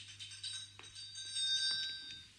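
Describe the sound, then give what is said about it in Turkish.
A maid's call bell rings out with a bright, high metallic tone that lingers and shimmers, then is struck again so the ringing swells before slowly fading, over a steady low hum. “Hizmetçi zilini çalıver canım. Ben çalayım anne. Çal bakayım.”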